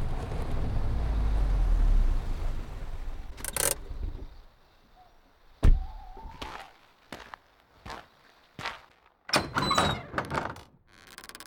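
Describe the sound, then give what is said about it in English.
Car driving slowly up a potholed lane to a farm, heard as a low, steady rumble for several seconds that then stops, followed by a few scattered thumps, knocks and clattering bangs. “6 hours later, I drive slowly up the potholed lane to my father's farm.”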